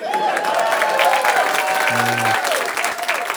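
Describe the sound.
A live audience applauds and cheers at the mention of Green Eggs and Ham. The clapping is dense and steady for the whole clip.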